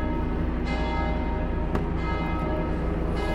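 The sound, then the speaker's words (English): A bell rings at seven o'clock in Italy, heard as loud, continuous ringing with many strikes blended into a sustained, metallic wash of overtones throughout. “This is a 7 o'clock bell.”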